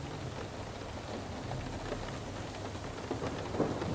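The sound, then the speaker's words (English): Rain droplets hitting a window make a faint, steady patter over a low rumbling undertone. The sound is continuous and even, with no voices. “As you notice the sound of tiny droplets meeting your window, then individually and invisibly rolling down,”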